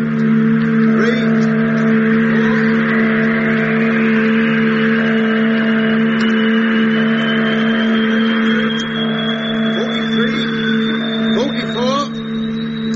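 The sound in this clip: Steady engine drone with a low, even harmonic hum that runs unbroken under people calling out commands. A thin high tone slowly rises in pitch through the second half.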